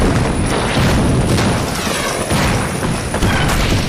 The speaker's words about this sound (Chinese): 我从这里听到枪声、炮声不断。